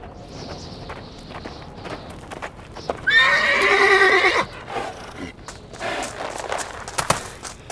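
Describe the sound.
Horse hooves clip-clop at a brisk trot as a bay horse is urged faster, broken midway by one loud, shrill whinny of about a second and a half before the hoofbeats carry on.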